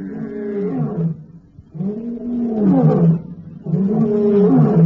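A male lion gives a warning roar near a kill: three deep, rasping, grunting roar bouts separated by short pauses, loud and alone.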